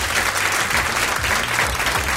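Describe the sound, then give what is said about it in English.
Audience applause from a sold-out 120-seat crowd at a live comedy show: dense, loud, steady clapping sustained evenly throughout. “Give yourselves a round of applause for being here today.”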